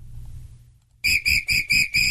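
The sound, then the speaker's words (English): A referee's whistle, blown as in a football game, sounds as five short, shrill, high-pitched blasts in quick, even succession after about a second of near silence. “We taking this to football terms. Blow the whistle.”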